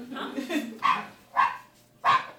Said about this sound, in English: I got you your Valentine's Day present today. A puppy? You got me a puppy?